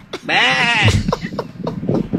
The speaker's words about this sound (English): Why do we have so many goats?